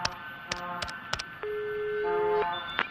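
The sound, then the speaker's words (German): A telephone number is being dialled: several short electronic key tones and clicks, with a longer steady beep in the middle, all fairly faint. “Ich wählte die Nummer sofort.”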